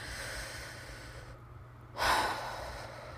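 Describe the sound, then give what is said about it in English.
A deep breath taken in and let out: a soft, breathy intake, a brief hush, then a louder rushing exhale that fades away. Faint, with no talk. “let's take a deep breath”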